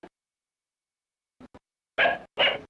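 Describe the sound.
A dog barks twice, loud and sharp, after a few faint short sounds, as it is urged to grab and pull a man by his trouser leg.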